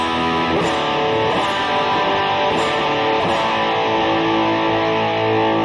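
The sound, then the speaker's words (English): Electric guitar, a Kramer Beretta Special, played through an echo effect: sustained, overlapping chords with a few strummed attacks and repeats blending into a continuous, steady wash, with no voices. “It's like an echo pedal. Yeah, I know there's some echo here. I'll turn the echo off.”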